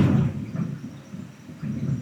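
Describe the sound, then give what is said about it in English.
Thunder outside a window during a storm with lightning, a low, continuous rumble that swells at the start, eases, then builds again toward the end. “Yeah, thunder and lightning. It's just gone. It's just thunder and lightning. It's just appeared outside my window.”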